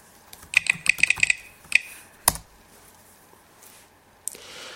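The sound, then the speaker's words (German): Key clicks from typing a password on a computer keyboard: a quick, uneven burst of light taps over the first two seconds, one sharper click after a pause, then quiet with a faint tap near the end. “Jetzt muss ich diese Taste drücken. Drücken Taste. Und jetzt kann ich mein Passwort eingeben.”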